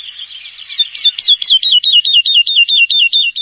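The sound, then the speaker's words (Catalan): Woodlark song: a high, clear run of repeated whistled notes, each sliding downward. It starts as a looser jumble, then settles into a fast, steady string of many near-identical loud notes with no other sound. “Pues el cotoliu sí que fa... Sembla que faci cotoliu,”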